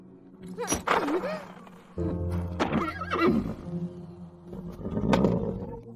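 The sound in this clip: A Hungarian horse neighs in a few loud, quavering whinnies that break over a steady low rumble, with some brief sharper sounds between them.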